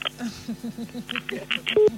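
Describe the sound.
A telephone number is dialled, a quick series of short electronic beeps under a talking voice, ending with a slightly longer steady tone.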